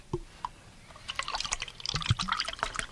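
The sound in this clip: Camel milk is poured into a glass, a soft, faint trickle and splash of liquid that starts after a couple of small taps and grows into a busier burbling stream toward the end.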